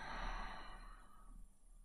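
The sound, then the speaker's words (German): A deep breath taken during a guided breathing exercise, heard as a single soft, airy exhale that slowly fades over about two seconds, with no voice. “Atme tief durch die Nase ein und durch den Mund wieder aus.”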